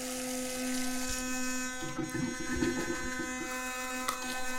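An electric toothbrush buzzes steadily. Its fairly faint, continuous high-pitched whine sits over a low hum, with brief scrubbing noises in the middle and no talk.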